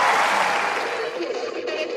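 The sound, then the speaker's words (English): Applause at the Roland Garros tennis tournament for Jasmine Paolini reaching the semifinals, a fairly faint, steady patter of clapping under a speaking voice that slowly thins out. “Mesdames et messieurs, merci d'applaudir. Jasmine Paolini, qualifiée pour les demi-finales de Roland Garros.”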